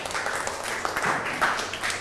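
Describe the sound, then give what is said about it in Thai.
A class of students applauds a classmate after a presentation, steady, fairly soft clapping from many hands running evenly through the whole moment. “นั่งลงปรบมือให้กับเพื่อนหน่อยครับ”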